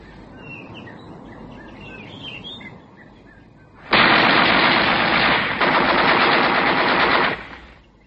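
Rapid machine-gun-like gunfire bursts out loud and dense for about three and a half seconds, after a stretch of chirping birds over a quiet background.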